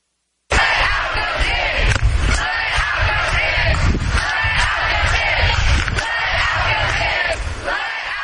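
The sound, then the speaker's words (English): A crowd of protesters at a New York rally demanding entry for more Afghan refugees shouts and yells together, a loud, dense, sustained roar of many voices rising and dipping in waves. “That was the sound of protesters in New York demanding that the Biden administration allow more Afghan refugees into America.”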